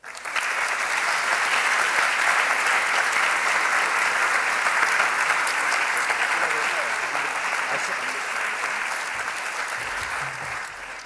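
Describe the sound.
Audience applause welcoming Brian Eno and David Graeber, a dense, steady wash of clapping that holds for about eleven seconds and eases slightly toward the end.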